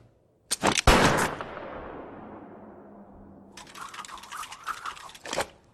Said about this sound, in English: You're shooting ironwork.